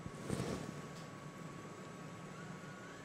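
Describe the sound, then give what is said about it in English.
Steady whirring hum of an AngioVac circuit pump set to about 2 liters for drawing out intravascular clot, a constant faint drone with a thin, even tonal whine. “So I'm going to go ahead and start our pump. And man, you just keep that down in there good. I'm going to go start it at about 2 liters.”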